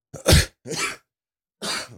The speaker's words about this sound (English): Exhibit A. Yeah. Still got reminiscences of a cough.